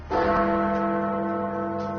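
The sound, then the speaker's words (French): The great clock-tower bell at Westminster, London, striking ten o'clock: one deep, resonant bell stroke with a rich, sustained hum that rings on alone for about two seconds. “So Big Ben has struck 10 o'clock. Les cloches de Big Ben viennent de sonner, il est 10h”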